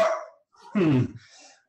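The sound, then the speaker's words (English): A dog barks excitedly in a few harsh, rough bursts. The middle bark is the loudest and longest, and no one talks over it. “Sorry, that's my dog just going nuts again.”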